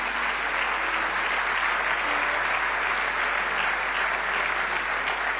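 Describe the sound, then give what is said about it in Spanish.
Applause from a church audience, a dense and even clatter of many clapping hands that holds steady and loud without a break. “En el nombre de Jesús, vamos, dale ese aplauso”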